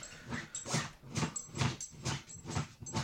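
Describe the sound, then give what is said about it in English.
A dog whimpers in a rapid series of short, high, thin whining cries, each with a soft breathy burst underneath, repeating at a steady pulse and fairly faint throughout. “that's the dog. I hope that's the dog again. It is indeed.”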